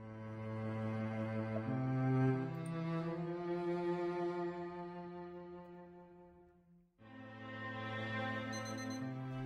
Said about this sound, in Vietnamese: Tiếng chuông báo thức từ chiếc đồng hồ nhỏ đặt trên bàn reo vang, báo hiệu một ngày mới đã tới.